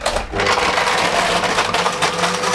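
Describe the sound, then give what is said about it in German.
A blender runs at full speed, mixing a drink with four ice cubes, a loud, continuous whirring and grinding roar that holds steady throughout. “Wir brauchen vier Eiswürfel. 1, 2, 3 und 4. So, und jetzt geht's ans Mixen. Yeah, Deckel drauf und an. Darf ich? Volle Stufe? Volle Pulle.”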